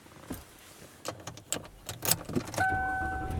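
Car interior sounds as someone sets off to drive home: scattered clicks and a jangle of keys over a low rumble, then a steady two-tone electronic chime that holds to the end.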